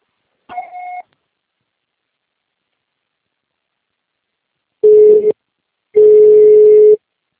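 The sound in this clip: An answering machine beeps: one short two-toned beep, then after a long silence two longer steady tones, the second lasting about a second.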